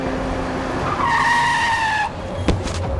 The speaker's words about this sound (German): Wie aus dem Nichts kam der Wagen auf mich zugerast, in der kleinen Wohnstraße mitten im Neubaugebiet.